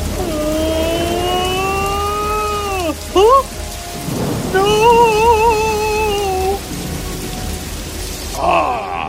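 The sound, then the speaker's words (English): A thunderstorm with steady rain and low rumbling thunder, loud throughout, overlaid by whistling, gliding tones that swoop up and down. “Such wonderful weather. Don't you agree? It's magnificent. The thunder is music to my ears.”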